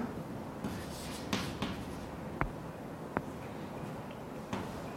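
Writing on a board while equations are worked through yields faint scratching with a few sharp taps scattered throughout.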